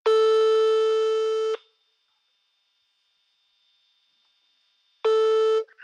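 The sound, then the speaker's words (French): Telephone line tones sound while a call is placed to a twin brother: two long, steady, clean tones separated by about three and a half seconds of silence, with the second tone shorter than the first. “Alors il m'a proposé d'appeler Axel, son frère jumeau.”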